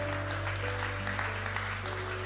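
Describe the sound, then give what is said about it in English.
Audience applause at a religious gathering, a continuous dense clatter of many hands clapping over a strong low steady hum. “people are applauding”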